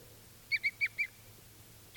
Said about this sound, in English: And this is bird 390.